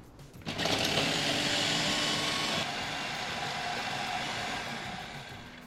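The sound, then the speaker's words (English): A blender purees four tomatoes for an Indian dal tadka, a steady, loud, high whirring motor roar that starts abruptly, runs even and eases slightly toward the end. “We are going to puree up 4 tomatoes.”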